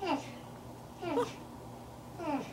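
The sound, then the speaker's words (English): Babble-like animal calls with a baby-like quality, from a species with large bulbous noses: three warbling, harmonic bursts with wavering pitch, separated by short pauses, over a low steady background hum. “And their calls sound like baby babbling in a non-creepy way. So I have an audio clip.”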